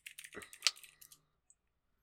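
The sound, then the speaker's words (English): Quick, faint typing on a computer keyboard, a short run of soft clicking keystrokes followed by a pause and one final tap. “Are you just Googling Junji Ito Homestuck? That's literally what I typed in!”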